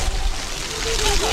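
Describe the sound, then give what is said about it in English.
Children play in water at a splash pad in San Antonio, Texas. A steady rush of spraying water runs throughout, with children's voices mixed in over it. “That's the sound of kids playing at a splash pad in San Antonio, Texas.”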